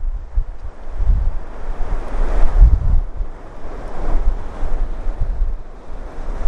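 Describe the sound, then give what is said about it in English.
Strong wind roars across a coastal bay in Scotland, buffeting the microphone with a steady, loud rumble and low gusts, while surf washes beneath it. “And it's very windy all of a sudden.”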